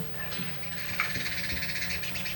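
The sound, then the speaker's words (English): A bird calling outside, giving a continuous stream of repeated chirping notes at a fairly faint, steady level, with no talk over it. “I don't know what's the matter with that bird out there.”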